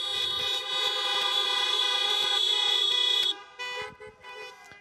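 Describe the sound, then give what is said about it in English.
Car horns toot in a parking lot: a loud, sustained honk holds steady for about three seconds, then breaks into shorter, uneven toots. “here in the parking lot, let's all wave, let's all toot our horns to say hi to everyone else”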